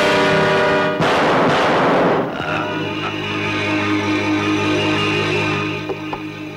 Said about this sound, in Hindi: Don, तुमने इसे गोली क्यों मार दी?